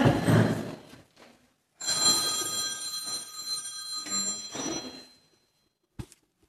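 A telephone bell rings out during a church service, a steady high-pitched electronic trill lasting about three seconds. It follows a short stretch of rustling noise and ends with a faint click.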